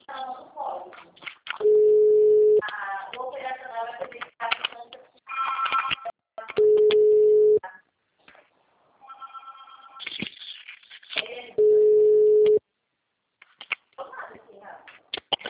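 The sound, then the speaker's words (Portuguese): Steady ringback tones of an unanswered telephone call, three long even beeps about five seconds apart, with talking in the gaps between them. “Acabei de tentar ligar para ela, ninguém me atendeu. Estou tentando de novo.”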